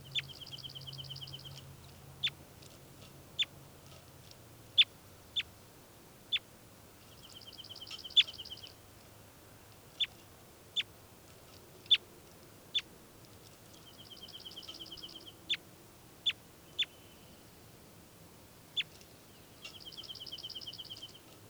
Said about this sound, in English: So recording again, bird 405.